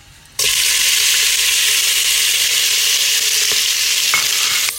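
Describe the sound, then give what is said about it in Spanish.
Beef sizzles loudly in a frying pan. The hiss starts abruptly and holds at an even, dense level for several seconds, with a few faint clicks from stirring. “vamos a freír un poquito la carne. Que quede bastante cocidita.”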